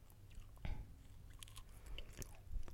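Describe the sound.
Chewing of a sweet banana with a hard skin: soft biting and wet mastication with a few brief crunchy bites, quiet and close, with no talk.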